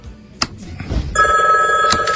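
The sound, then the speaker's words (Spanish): A home telephone rings through the night with repeated calls: a steady, bright electronic ring that starts a little past halfway and continues unbroken to the end, after a short stretch of low rustling and a single thump. “Esa malvada grabación de nuevo. Ajá, ha llamado toda la noche. Desconecta el teléfono.”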